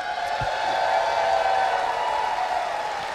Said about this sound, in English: Clap your hands.